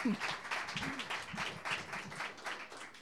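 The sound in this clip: Audience applause welcoming a singer and her two backup singers to the stage: a dense, steady wash of clapping that carries on throughout, with voices mixed in underneath.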